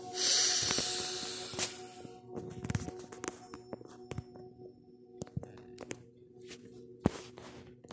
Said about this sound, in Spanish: Ahora vas a inhalar profundo por la boca y vas a exhalar profundo por la nariz.